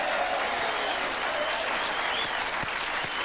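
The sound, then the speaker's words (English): An audience at a talk show bursts into dense, loud applause for a political line, a steady wash of many hands clapping throughout. “Applause, which it's the loudest line of applause anything's gotten on this show all day.”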